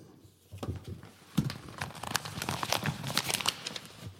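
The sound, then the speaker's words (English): Paper crackles and rips as an envelope is torn open at an awards ceremony, a quiet start giving way to a sharper tear and then a rapid, irregular run of crinkling bursts. “And the winner is, envelope please.”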